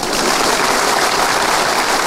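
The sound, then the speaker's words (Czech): Audience applause: dense, loud, continuous clapping that blends into an even, hissing wash, steady from start to finish and much like heavy rain. “Je to fajn, teď už budou tleskat všemu.”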